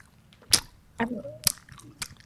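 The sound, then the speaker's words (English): Bubblegum being chewed and blown into a bubble: a few faint, wet mouth smacks and sharp clicky pops separated by short pauses, with a brief squeaky tone in the middle. “Bubblegum. It was bubble. I was blowing a bubble.”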